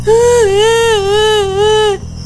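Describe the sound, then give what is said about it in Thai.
A voice imitating a lost duckling crying, one long, high, wavering wail with gentle vibrato, loud and sustained before cutting off sharply near the end. “ลูกเป็ดเอาแต่ร้องไห้”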